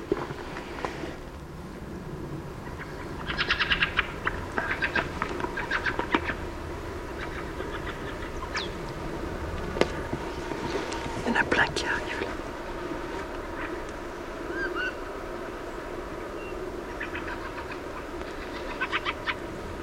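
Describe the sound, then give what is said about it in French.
Thrush calls, harsh dry chattering 'tcha' notes given in a few short bursts, faint over a quiet background hiss. “Ah, un cri de grive.”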